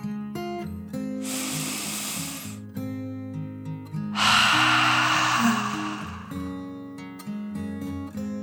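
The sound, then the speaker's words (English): A deep breath in and then out, taken in a dragon's character: two long, airy breath sounds over soft, steady background music, the second louder and fuller than the first. “Finally, feeling totally relaxed, Dragon took one more deep dragon breath, in and out.”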